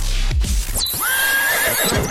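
Horse neighing, a single whinny with a high falling cry that settles into a steady tone, loud over a noisy background with no voices.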